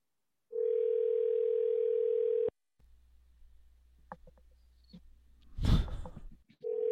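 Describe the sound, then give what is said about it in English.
A steady electronic voicemail tone holds level for about two seconds. Low humming and scattered clicks follow, then a short, loud burst of noise, and the tone starts again at the end. “Leave a message.”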